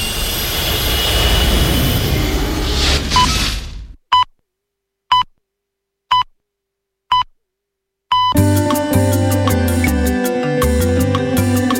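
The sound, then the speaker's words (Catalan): Roaring, jet-like engine rumble of a spaceship taking off back to planet Earth. The roar holds steady for about four seconds, then cuts off into four short, evenly spaced electronic beeps. “Pugeu a la nau i cordeu-vos dels cinturons. Doncs tornem al planeta Terra.”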